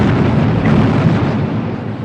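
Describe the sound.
Cannon fire in a battle of the American War of Independence, a heavy continuous roar of overlapping booms and rumbling with no clear separate shots, loud and dense throughout.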